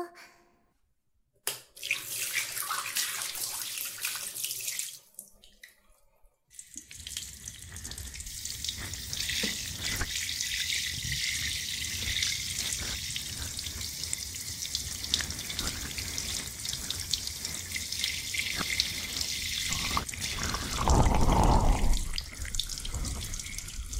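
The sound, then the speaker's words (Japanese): Water running from a salon sink tap to rinse a customer's hair: a few short bursts of splashing at the start, then a continuous, even hiss of flowing water that grows slightly louder toward the end. “はい、流しますよ。”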